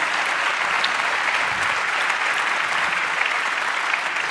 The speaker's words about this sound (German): Riesenapplaus nochmal für die beiden.